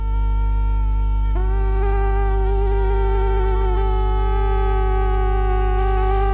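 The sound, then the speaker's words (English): Two mosquitoes buzz close to the ear in a continuous, thin, high whine rich in overtones. Their pitches waver and shift slightly as they fly, over a steady low hum, with no talking. “that was the extremely unpleasant sound of not one, but 2 mosquitoes buzzing around near your ear”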